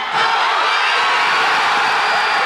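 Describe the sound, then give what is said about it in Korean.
A crowd of football fans roars in sustained, loud cheering as a comeback goal seals a 2-1 win. The dense wash of voices holds steady throughout without a break. “그리고 모두가 애타게 기다리던 역전골이 터졌고 2-1 역전승이 확정되는 순간 현장 곳곳에서 환호성이 터져나왔습니다.”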